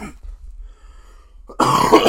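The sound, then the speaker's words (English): A person who is ill coughs with a rough, throaty clearing sound. A short burst comes first, then a pause, then a louder and harsher cough that carries on to the end. “I'm sick, so you're going to hear that cough throughout the whole podcast.”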